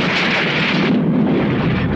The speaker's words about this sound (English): The chopper explodes in a ball of fire.